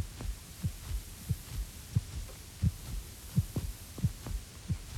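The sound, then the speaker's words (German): A steady heartbeat, with paired low thumps repeating evenly and clearly over a soft background hum. “Mein Herzschlag ruhte sich aus.”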